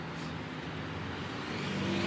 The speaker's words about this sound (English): And as you can hear, I'm now back in traffic.